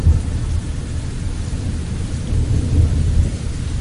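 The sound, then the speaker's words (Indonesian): Heavy rain pours in a dense, steady hiss, with deep rumbling thunder underneath; the roar stays constant for the whole stretch, with no voices. “Di luar sana hujan cukup deras.”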